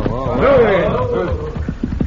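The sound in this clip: Horses' hooves clop as riders arrive. A man calls out first, then a few quick, hollow hoofbeats sound as the horses come to a halt.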